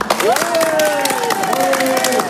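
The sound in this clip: An excited audience applauds in the Salle Claude Dussert at La Beige, brisk clapping running throughout while voices call out over it.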